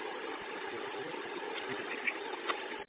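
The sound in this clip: A parked vehicle's engine idles steadily after earlier stalling, a continuous low, even rumble with a few faint knocks and no voices.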